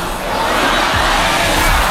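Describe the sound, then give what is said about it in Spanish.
A stadium crowd chanting for footballer Cucurella, a dense, loud wall of many voices roaring and singing together, sustained without a break. “uno gracioso con Cucurella animando al público a cantar la canción que le acompañó hace 2 años en la Eurocopa”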